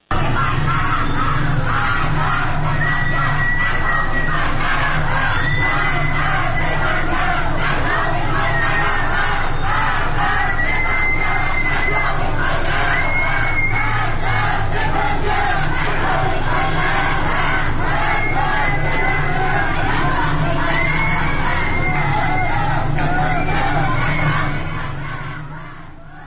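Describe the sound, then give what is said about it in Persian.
A large crowd of protesters on Jamalzadeh Street in Tehran chants slogans in loud, rhythmic unison. Repeated shouted phrases continue without a break and fade only at the very end. “در خیابان جمال‌زاده تهران معترضین زیادی رو شاهد بودیم. بشنویم با هم صدای ویدیویی که از این خیابون به دستمون رسیده.”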